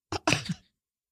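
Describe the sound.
A single sneeze from someone coming down with something: a short burst, then a louder, breathy, noisy release, about half a second in all, with no talk around it.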